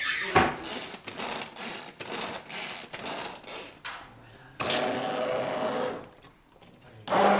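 A kitchen blender purées halved, seeded produce with salt and pepper until liquid. It buzzes loudly in choppy pulses at first, then in a longer continuous run, with a brief lull near the end.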